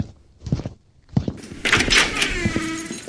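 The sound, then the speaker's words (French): A stock door sound effect of the kind common in Sega games: a few short thumps lead into a longer, bright, noisy rush. “Eh, bruit de porte! C'est le bruit de porte le plus bête truc que j'ai jamais entendu! Le mec, il débute avec le son le plus utilisé de la Sega Sphere!”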